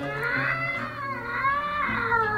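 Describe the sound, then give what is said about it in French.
A cat yowls in a long, wavering, harmonic wail that rises and falls in pitch, fairly loud and steady, with no voices over it. “Et alors là, de nouveau, l'horrible miaulement de la bête du bon Dieu.”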